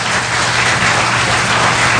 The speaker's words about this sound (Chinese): 掌声归耶稣，好不好？